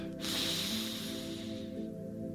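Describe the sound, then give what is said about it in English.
A deep breath drawn in slowly through the nose: one sustained, airy hiss of about a second and a half that swells, then fades, over a steady low hum. “Take a deep breath in from the diaphragm and through your nose.”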